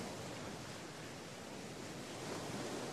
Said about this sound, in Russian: Корабль плыл, разрезая своей кормой сверкающую на солнце воду.